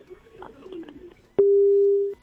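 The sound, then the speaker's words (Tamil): A phone call cuts off into a busy tone: a faint, muffled murmur, then a sharp click and a single steady, clean tone that holds for under a second before it stops. “அடடா, என்னது கால் எல்லாம் cut ஆயிட்டு இருக்கு.”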